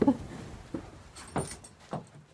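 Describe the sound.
Enormous old key unlocking a plank church door with a large metal handle on Romney Marsh: a few faint metallic clicks and clunks, spaced apart and quiet throughout.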